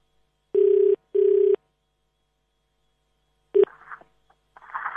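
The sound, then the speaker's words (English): A telephone call being placed: two identical, steady electronic ringing tones, a pause, then a brief tone followed by faint crackling line noise. “I've been trying Mary Lobanki more and I can't get through.”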